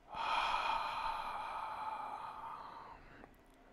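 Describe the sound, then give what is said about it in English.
A deep breath being exhaled during a guided relaxation exercise: one long, steady, breathy whoosh of about three seconds that slowly fades, with no talking. “Take another deep breath. And exhale and relax.”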